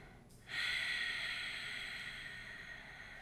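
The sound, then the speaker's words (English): A long nasal inhale during a yoga breathing exercise that starts abruptly, then holds as a soft, steady hiss for nearly three seconds. “Taking one more breath.”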